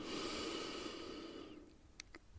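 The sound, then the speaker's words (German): A long, deep inhale during a guided mindfulness meditation: a soft, airy rush of breath lasting about a second and a half, fading away, followed by a couple of faint brief sounds in near silence. “Einatmen.”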